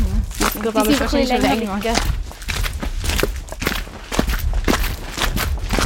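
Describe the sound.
Footsteps of people walking together, a run of irregular, soft steps that begins after a stretch of talk and continues beneath ongoing conversation.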